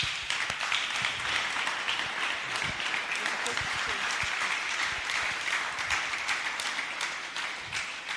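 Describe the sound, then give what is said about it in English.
Congregation applause at a church service, offered as a clap offering: dense, sustained clapping at steady loudness for the whole clip. “give the Lord a big clap offering”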